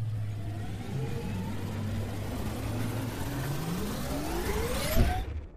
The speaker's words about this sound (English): this is going to get a little bumpy because we're going to have to ride the Hustle Share time machine. Let's do it.